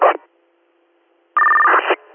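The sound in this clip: Radio dispatch alert tones sound as two bursts: a short blip, then a pause, then a longer steady tone at a fixed pitch lasting about half a second before cutting off.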